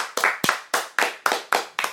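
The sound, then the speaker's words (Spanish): Clapping for an elderly guest being welcomed on a Spanish talk show, a fast, steady beat of loud, sharp claps, each ringing briefly before the next. “Un aplauso para ella.”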